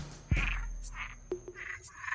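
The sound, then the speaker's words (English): Desert toads croak through an ambient piece: a low thump opens it, then a series of short, buzzy croaks follows at an uneven pace, faint over a thin, steady high tone. “Hey, here's my piece. I knew we'd get to it finally. Planet Z's Desert Toads. I have this on SoundCloud as ambient.”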